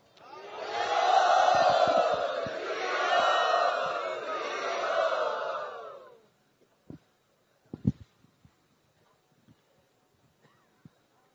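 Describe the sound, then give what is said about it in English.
A crowd roars and shouts loudly in welcome of a visiting spiritual leader. The swelling cheer lasts about six seconds, then gives way to near silence with a few faint knocks. “So let us welcome very loudly His Holiness Kavichandra Maharaj.”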